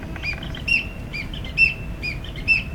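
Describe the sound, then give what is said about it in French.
A tit singing, bright high chirping notes in a repeating phrase that comes round about three times, each with a sharper squeaky peak, over a low background rumble. “Écoutez, qui chante ainsi? La mésange.”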